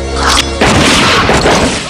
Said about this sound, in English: The guards shoot the old man and the prisoner.